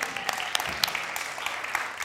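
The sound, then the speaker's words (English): An audience claps for the technical crew at a church gathering. It is a fairly faint, brief patter of many hands with scattered sharper claps. “we should all appreciate the people who do the techie stuff, because let's clap them”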